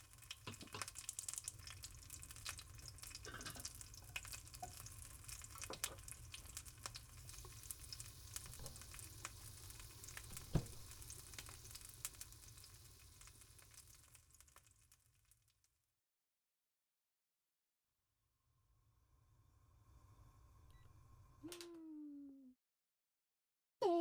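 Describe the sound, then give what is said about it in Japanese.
Eggs frying sunny-side up in a pan give a steady crackling sizzle that runs for about fifteen seconds, then cuts out, followed by quieter kitchen noises and a brief tonal sound. “目玉焼き、片焼きがいいんだっけ。 すぐ作るから”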